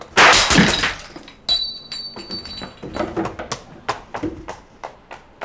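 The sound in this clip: Window glass shattering: a loud crash at the start, a second sharp impact about a second later, then many scattered clinks and taps of falling shards that come in bursts and fade toward the end.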